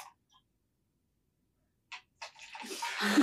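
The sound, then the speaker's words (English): Craft beer is poured into a glass: after near silence and a couple of brief soft sounds, a rising frothy hiss of liquid fills the last second. “So if I'm pouring myself a craft beer, you might have to mix.”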